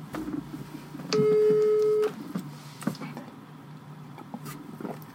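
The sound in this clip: An outgoing phone call rings out with a single steady, mid-pitched ringback tone lasting about a second, amid faint background shuffling and low noise.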